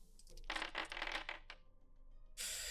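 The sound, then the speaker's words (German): Dice rolled during a tabletop role-playing game make a quick run of sharp, hard clattering clicks that tumble and then settle, with no voices over them. “Und ich würfel mal.”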